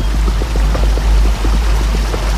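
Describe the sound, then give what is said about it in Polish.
A river suddenly turned turbulent churns and seethes like a boiling whirlpool, giving a loud, steady rushing of water with bubbling, gurgling detail and a deep low rumble throughout. “Bolesław widzi, jak wzburzona nagle rzeka pochłania jego wojów, jak wrze, niczym kipiel”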